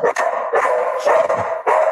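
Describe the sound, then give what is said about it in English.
A dog barks at someone at the door, letting out a few loud, sharp barks in quick succession. “My dog. Yeah, someone at the door.”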